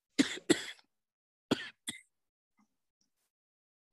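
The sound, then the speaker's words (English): A person coughs four times: two sharp coughs close together, then a pause and two more, the last one shorter and lighter, with silence after. “sorry about that. I had to cough.”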